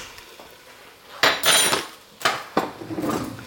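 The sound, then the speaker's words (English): A utensil clinks and scrapes against a bowl while ingredients for a coronation no-chicken dish are mixed after a sweetener is added, in a few bursts of brisk metallic rattling separated by short pauses, with no talking. “Get that mixing in.”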